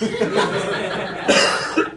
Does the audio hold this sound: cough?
yes